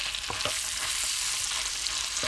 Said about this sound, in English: so we've got to add some ingredients to this sizzling butter. Throw in some chicken. We got to cook the chicken first. Alrighty. We're adding chicken to the butter.